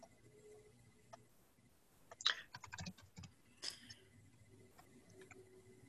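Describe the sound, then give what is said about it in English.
Faint typing on a computer keyboard as an email address goes into a chat: scattered soft clicks, with a brief quicker flurry of keystrokes in the middle. “In fact, actually, I'll type it in the chat. So I'll type her email in the chat feature as opposed to saying it out loud.”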